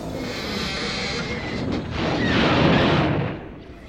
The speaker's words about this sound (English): He just waved his hand and all those battle droids exploded.